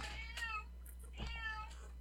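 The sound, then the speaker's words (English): A male cat meows twice, each call a drawn-out, tonal, somewhat rising-and-falling cry about half a second long, separated by a short pause, with no talking over it. “My cat's yelling at me. What do you want, boy? What do you want?”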